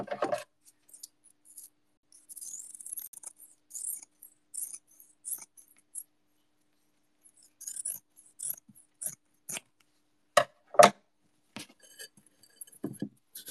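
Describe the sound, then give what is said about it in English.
Scissors trim material to size for a terrarium, giving a faint, irregular run of short, crisp snips and clicks separated by quiet pauses. “just need to cut off a little bit more.”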